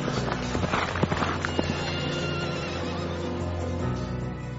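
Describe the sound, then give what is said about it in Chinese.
Horses whinny and pound along as mounted riders and cavalry flee a battle. Loud neighing rises over a dense, continuous thud of hoofbeats. “亚兰王便哈达骑着马和马兵一同逃跑。”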